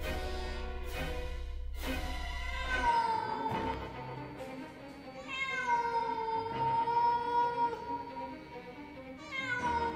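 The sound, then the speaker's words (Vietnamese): A black cat meows in a few long, drawn-out tonal calls that swell and fade, fairly loud and alone with no talk. “Đang trong lúc tuyệt vọng thì tôi bất giác lại nghe tiếng mèo kêu.”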